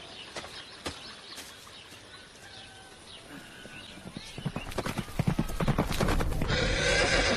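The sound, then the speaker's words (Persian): Horse hooves clip-clop in a quick, uneven patter alongside a horse's whinny, the hoofbeats growing denser and louder toward the end, with no talk. “میدونم خانواده هاتون یادتون دادن چطوری اسب سواری کنین، اما نه همچین اسبی.”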